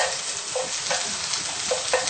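Leek and mushroom frying in a pan give a steady, bright sizzle with a few soft clicks and pops scattered through it. No one speaks.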